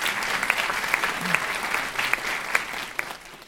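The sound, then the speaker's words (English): An auditorium audience applauds at an event, a steady fairly faint patter of many hands clapping that thins out toward the end. “Let's give them all a great hand.”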